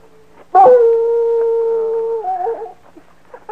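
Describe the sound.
A dog howls while pulling at its leash on a warm night. It gives one long, steady howl that holds its pitch, then breaks into a wavering, unsteady tail and trails off into soft whimpers.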